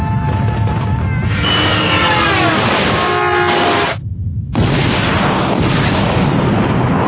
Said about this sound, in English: Actually, sir, each of those lights represents a missile launching by itself.